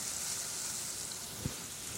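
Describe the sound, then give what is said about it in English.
Garlic sizzling in a hot pan as it is stirred, a steady, even hiss with one soft knock partway through. “All right, my garlic is squished in. And now we have to stir it. We don't have to stir it constantly, but give it a good sort of swish around.”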